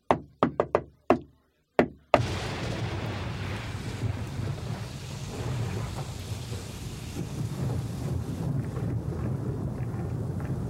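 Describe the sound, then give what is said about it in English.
Knocking on a hotel room door late at night: several sharp, rapid knocks in an uneven burst, followed by a steady rushing, rain-like noise. “There was a knock on my door and it was like,”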